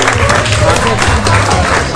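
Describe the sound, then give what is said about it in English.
An audience breaking into applause, a loud, dense clatter of clapping with voices talking underneath throughout. “how about a round of applause for everybody here? Come on out.”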